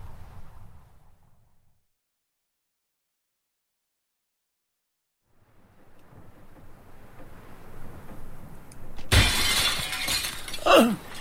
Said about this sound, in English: A terrible noise, a crash. Yes, I heard it. It was glass.